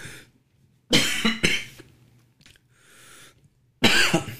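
Dry, harsh coughs from a person with a dry throat. A close pair of coughs comes first, then a quieter stretch of faint throat noise, and a final loud cough bursts out at the end.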